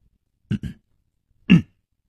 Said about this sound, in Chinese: 干咳了一声说，